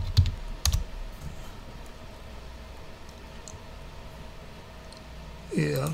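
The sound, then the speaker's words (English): Keyboard typing on a computer: two sharp clicks at the start, then a long stretch of faint hiss, and a voice near the end. “let me just type it in, cause I think I'm moving too fast to.”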